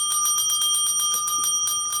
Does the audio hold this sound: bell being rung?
yes

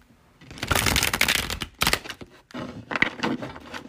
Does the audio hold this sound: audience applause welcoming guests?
no

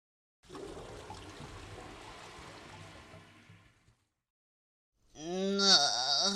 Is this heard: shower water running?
yes

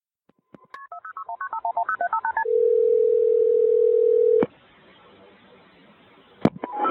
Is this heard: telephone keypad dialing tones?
yes

